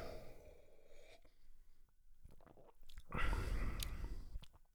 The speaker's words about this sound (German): Mal nochmal einen Schluck nehmen.